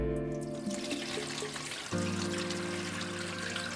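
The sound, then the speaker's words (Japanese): Hands are washed under running tap water, with a soft, steady splashing stream throughout. “ほら、洗ってあげるわよ。ちょっと動かないで。”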